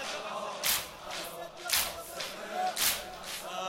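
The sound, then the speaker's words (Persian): Mourners beating their chests with their hands in sineh zani, a few sharp, loud slaps landing at a steady, roughly once-per-second rhythm over a low background murmur. “جلو یا سینه بزن، این دستت بیا بزن.”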